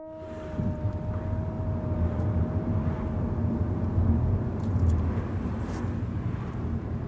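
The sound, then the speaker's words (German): Steady low rumble of a car driving along a road heading south from Munich toward the Alps, continuous engine and road noise with a faint constant tone and no talk. “Von München aus fahren wir Richtung Süden, Richtung Alpen, bayerische Bilderbuchlandschaft, mittendrin der Schliersee.”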